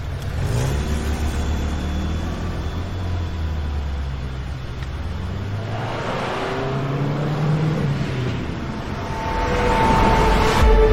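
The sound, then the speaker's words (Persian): A car engine drones steadily as it drives through traffic and turns onto a side road, its low rumble swelling louder toward the end. “نعیم از لابلای ماشینا میره تو جاده فرعی.”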